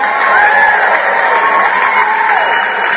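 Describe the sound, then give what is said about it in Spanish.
Crowd cheering loudly with whoops and shouts, some voices sliding up and down in pitch, holding a steady, excited roar from start to finish. “Ahí están los aplausos para Mario.”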